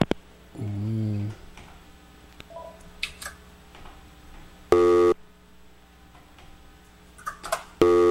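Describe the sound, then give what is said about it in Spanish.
Telephone busy tone on a line after an incoming call cuts off: a few loud, steady electronic tone bursts separated by stretches of low background hiss, with no voices. “por ahí se estaba entrando otra llamadita, se cortó la llamada”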